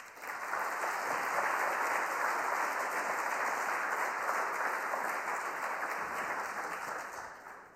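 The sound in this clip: Sustained audience applause welcoming a speaker at Cornell, a dense, steady wash of clapping that holds at an even level for several seconds before easing slightly at the end.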